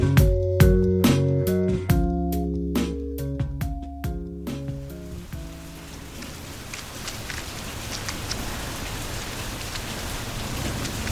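Steady rain falls in cold, wet weather over muddy roads. After a short musical passage, a dense, even hiss of rain continues alone.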